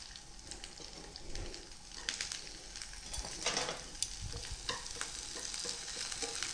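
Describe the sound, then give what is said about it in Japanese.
Komatsuna greens sizzling as they are stir-fried in hot oil, a continuous bright crackle with scraping stir strokes and louder spitting bursts throughout. “さあ、では油が熱されてきたらここに小松菜を入れます。”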